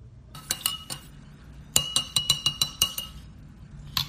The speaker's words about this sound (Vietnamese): Sau khi thưởng thức hết tô phở nóng thì đây là lúc mà tôi nhâm nhi ly cà phê đen nóng mà mình đã đặt.